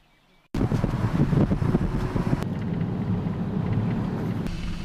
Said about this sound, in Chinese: 当车辆行驶在磐安县的山道间时，记者不仅感受到了大山中深藏的绿意和清新。